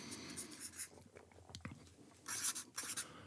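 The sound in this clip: Pens scratch on paper as quiz participants handwrite free-text answers, in uneven bursts of quiet scratchy strokes that grow louder and denser toward the end.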